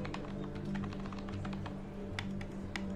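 A computer mouse clicks through a menu on an office computer: a few sparse, faint, sharp clicks over a steady low electrical hum.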